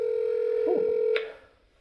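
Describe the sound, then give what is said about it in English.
Telephone dialing tones sound over a speakerphone as a call is placed. A steady electronic tone holds for just over a second, ends with a brief higher blip, then fades away. “Let's see if we can get Michael on the phone. I can get a speakerphone here.”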